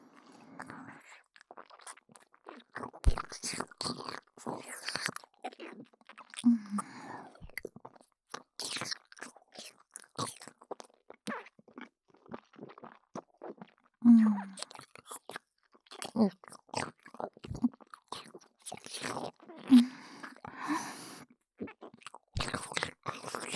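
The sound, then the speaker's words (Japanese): Someone eats food with many crisp crunches and wet chewing sounds. They come in irregular bursts separated by quiet gaps and are mostly soft, with a few louder bites. “私に味合わせてくださいませ。 ではいただきます”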